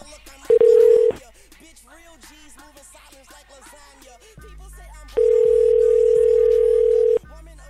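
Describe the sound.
Telephone line tones sound while a prank call is being placed: a short steady tone, then a longer steady tone of about two seconds, with voices and a low hum in the background.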